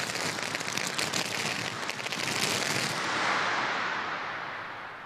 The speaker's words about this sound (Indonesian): Isikan lagi. Hormat. Tembak.